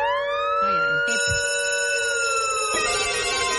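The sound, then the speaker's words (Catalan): A siren wails loudly and continuously with several layered tones. Its main pitch slowly sweeps up and then down, and there are no pauses through the whole clip. “Escolta aquesta sirena.”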